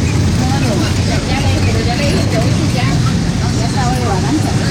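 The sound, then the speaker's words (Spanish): Continuous loud rumble and road noise of a run-down city bus in Popayán, Colombia, recorded by a passenger seated beside the window, with steady engine drone and rattling running through the whole stretch. “Nos envían un videíto, dicen, mire el estado de los colectivos en Popayán. Cargamos el videíto”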